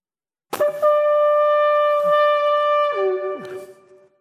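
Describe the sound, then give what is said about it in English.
A shofar, a ram's horn, blown in one sustained, brassy, rasping blast of about three seconds, with the pitch dropping near the end before the note cuts off. “So let's see what an unpleasant sound I can make with the shofar, the ram's horn.”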